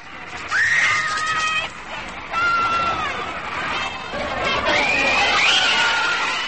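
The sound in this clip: Girls scream en masse outside a New York hotel in 1964 where a touring band was staying: shrill, overlapping high-pitched shrieks that waver and swell, loud and continuous with brief dips.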